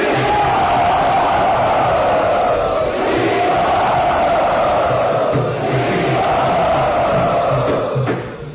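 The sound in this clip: A crowd at a temple cheers enthusiastically in welcome, a loud, continuous roar of voices that carries on unbroken for several seconds.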